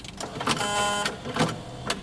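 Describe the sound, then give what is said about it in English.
Penny coin sounding in an exhibition: a few sharp metallic clicks, with a bright, sustained ringing tone between the first two. “And here comes the penny, which, you know, those are hard to find these days, so we didn't actually hear this sound right away at the beginning of the exhibition.”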